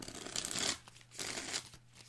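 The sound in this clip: Tarot cards shuffled and drawn, heard as two soft riffling, rustling bursts separated by a short pause, faint and with no talk.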